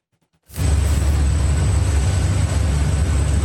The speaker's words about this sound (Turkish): Ama o test sırasında büyük bir patlama yaşandı. Patlamayla panik de hakimdi. Gökyüzünü aydınlatan patlama korku dolu anları getirdi.